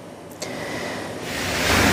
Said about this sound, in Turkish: Gök gürültüsüyle birlikte aniden bastıran sağanak cadde ve sokaklarda bu şekilde birikti.